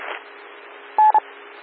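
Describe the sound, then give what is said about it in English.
Telephone dialing tones on a radio channel: two quick touch-tone beeps, the first slightly longer, standing out over a faint, steady hiss. “And now I'll move on, give him a phone call.”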